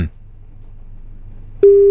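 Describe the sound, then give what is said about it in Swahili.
A telephone call tone plays while waiting for the other end to pick up. A steady, loud electronic tone starts abruptly after a stretch of near-silence with a low hum. “Sasa Don, pokea simu bwana.”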